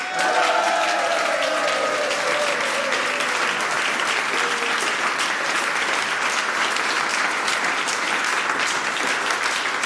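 Loud, dense applause from an audience welcoming performers at a live music festival concert in a culture venue in Appenzell, continuous and even from start to finish.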